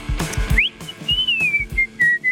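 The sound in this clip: A person whistles a short tune, a clear high tone that slides up quickly and then holds several notes that step gently downward. Regular low thumps sound underneath.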